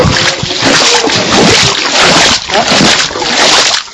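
Rubber boots splash and slosh through a flooded residential yard standing under 20 to 30 cm of water, with loud, continuous wading splashes and a brief dip in the churning near the middle.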